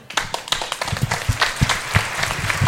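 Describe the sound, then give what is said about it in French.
Audience applause at an anniversary concert in Roanne: a steady crowd clapping with dense, irregular hand claps that hold at a fairly even loudness throughout, with no voices over it. “Enfin, on va applaudir celle qui supervise toutes les agences, c'est Frédéric.”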